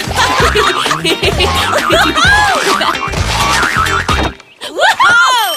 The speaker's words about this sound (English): You may begin bouncing. Bounce? Come on, bounce!